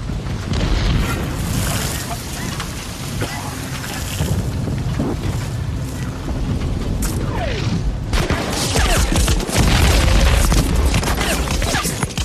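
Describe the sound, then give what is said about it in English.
Battle sounds from the Saving Private Ryan beach landing: a loud continuous roar of booms, surf and wind-like rushing that swells toward the end. “Those sounds you just heard, I played those for a reason, because it's pretty close to what it sounds like. Yeah, they said that was from Saving Private Ryan”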